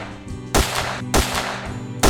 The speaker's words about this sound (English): everybody back at camp, off in the distance, everybody hears this gunshot ring out